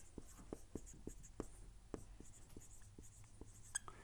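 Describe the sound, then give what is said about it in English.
Handwriting the word "type" makes many quick, scratchy strokes in an uneven rhythm, faint and dry. “let me write the word type. The word type just means pattern um, or mold.”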